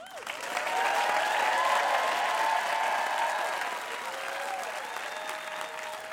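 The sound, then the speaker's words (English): Applause from a standing ovation follows a U.S. veteran's story at a live storytelling event in New Orleans. Loud, dense clapping swells during the first seconds, mixed with some voices, then eases slightly but continues to the end. “After Burnell told this story in New Orleans, the audience gave him a standing ovation.”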